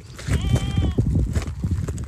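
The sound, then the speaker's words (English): A flock of sheep grazes on a green patch on the outskirts of a town in northeastern Syria. One clear, wavering, nasal bleat rises above a low, continuous rumble of the flock. “Shepherd Mahdin Ahmad al-Mahmoud is overseeing his flock of sheep. They're grazing on a green patch on the outskirts of Qamishli in northeastern Syria.”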